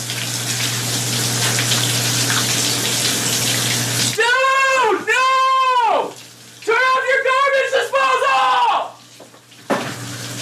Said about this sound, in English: Oh my God, are you kidding me? Turn off your garbage disposal! What are you doing?